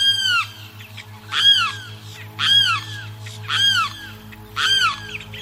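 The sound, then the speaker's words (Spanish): A limpkin, known on the plains as the carrao, gives five loud, wailing calls at a slow, even pace over a faint steady hum. “A esta ave se le conoce en el llano con el nombre de Carrao.”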